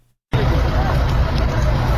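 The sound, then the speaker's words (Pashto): A loud, steady roar of an engine and people's voices breaks in as locals try to free a vehicle stuck on a badly damaged road to Nesh district in Kandahar. The dense noise holds unbroken once it starts. “د کندهار د نیش ولسوالۍ ته پر دغه غزیدې لار خلک دغه موټر د رایستلو په هڅه کې دي چې د لارې د خرابوالي له امله په یو منډه کې بند پاتې دي.”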